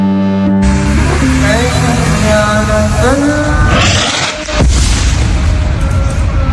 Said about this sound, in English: Israeli bombs explode in Gaza yesterday in an amateur video